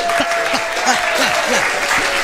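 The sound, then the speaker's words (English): Hands clapping in a steady rhythm, about six sharp claps spaced roughly a third of a second apart, heard alongside a continuous voice and a faint steady tone. “So clap the hands with me. Clap.”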